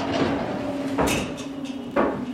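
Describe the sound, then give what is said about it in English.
Sliding cell door of a full-size replica prison cell closing, heard as two sharp metallic clanks about a second apart over a steady low hum. “The door slides closed behind me as I walk into a 10 feet by 12 feet gray cell.”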